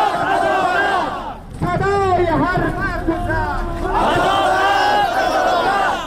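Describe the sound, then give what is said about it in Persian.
Protesters chant at a peaceful demonstration in Bamiyan province, Afghanistan. A loud crowd shout is followed by a single leading voice calling out a line, then the massed voices answer again in unison. “در گزارش غلام عباس نادری خبرنگار رادیو آزادی در ولایت بامیان بشنوید که با صدای معترضان آغاز می شود.”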